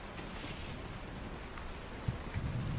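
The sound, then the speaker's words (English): Heavy rain pours down during a windy storm, a dense, steady hiss that holds at an even level with no break, heard alone with no voices. “Wind's picked up. Heavy rain.”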